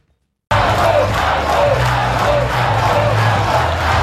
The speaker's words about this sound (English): Anthony Albanese has held his first campaign rally and announcing a $135 million health spending commitment in front of a loyal crowd in Melbourne.